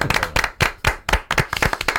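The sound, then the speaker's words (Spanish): Sharp, loud handclaps greet an author, about a dozen claps in an uneven, choppy rhythm with no voices. “Un aplauso para Paco Roca. Gran Paco Roca. Un aplauso para Paco Roca.”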